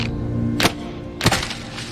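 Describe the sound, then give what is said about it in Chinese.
Slingshot shot striking its target, heard as two short, sharp cracks well apart over a faint, steady low hum. “打中了！ 真棒！ 好准头！手肘好。 同志，这弹弓玩的不错呀。”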